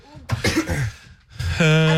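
A person coughs straight into a microphone with harsh, loud bursts, then a brief voiced sound follows.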